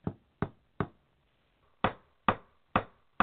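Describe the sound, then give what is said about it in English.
A hammer taps a nail into a scrap piece of wood, giving seven sharp, crisp knocks: three evenly spaced, a short pause, then four more at a steady rhythm, with silence between the strikes. “you're going to start by lightly tapping the top of the nail. Now, move your fingers and you can really start to hit it.”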